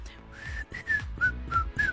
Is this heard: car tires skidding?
no